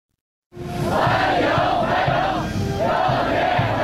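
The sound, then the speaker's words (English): Chinese teenagers chanting a welcome in unison while waving Chinese and American flags, greeting a US president's arrival in Beijing; a loud, steady crowd chant with repeated rhythmic phrases throughout. “And that's the sound of Chinese teenagers chanting welcome, waving Chinese and American flags in unison, greeting President Trump”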